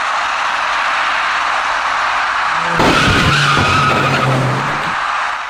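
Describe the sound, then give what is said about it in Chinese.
Tyres screech as a dark car turning right at an intersection collides with an electric bicycle rider. A sharp burst of skidding noise rises over steady road noise and lasts a couple of seconds before fading. “一辆右转弯的深色小客跟一位电动自行车的骑车人发生了相撞事故。”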